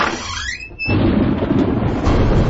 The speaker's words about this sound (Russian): а за ней ветер воет, дождь льет и молнии сверкают.